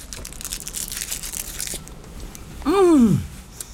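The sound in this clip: Soft papery crinkling of chocolate being unwrapped lasts about two seconds and is fairly faint. A short, louder tonal sound that falls in pitch follows it.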